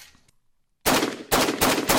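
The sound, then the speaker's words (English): Loud gunshots from a homemade metal AR-15 rifle emptying a 10-round magazine: several sharp, booming cracks in quick, slightly uneven succession, each ringing briefly before the next. “That's the sound of Andy Greenberg firing a 10-round magazine using the ghost gun he made in his office at Wired Magazine.”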